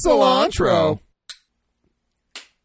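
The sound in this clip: Glasses clink together in a toast, two sharp, bright clinks spaced about a second apart after a short burst of voice, then quiet.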